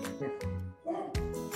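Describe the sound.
A dog barks faintly, a few short, muffled woofs and yips spaced unevenly through the moment.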